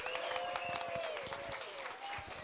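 A church audience claps and cheers to welcome a pastor to the stage, with dense, sustained applause and a few whoops throughout.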